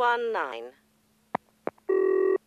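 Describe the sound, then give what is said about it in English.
A telephone ringing tone sounds on a call to an office extension: one short, steady buzzing burst that follows brief speech and a couple of clicks on the line. “The phone's ringing.”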